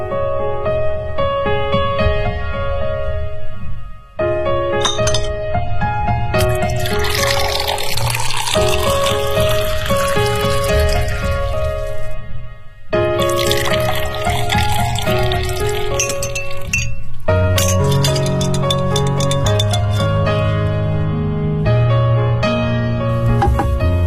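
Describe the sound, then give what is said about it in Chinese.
A cocktail of egg liqueur, lime juice, sherry, soda water and ice being mixed: liquid runs and pours continuously, with occasional clinks of glass, at a steady, fairly loud level with two brief pauses. “这是你的鸡尾酒，它是由鸡蛋利口酒、青柠汁、雪莉酒、苏打水和冰块调成的”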